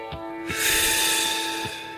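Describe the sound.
A deep breath in, a drawn-out airy intake lasting just over a second, with soft steady tones sustained underneath.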